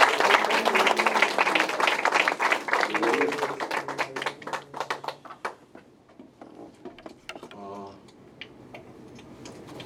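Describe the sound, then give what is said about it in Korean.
Congregation applauding at an evening church service: loud, dense clapping for several seconds that thins to scattered claps and fades out, followed by a brief spoken voice near the end. “주님께 영광의 박수 올려드리겠습니다.”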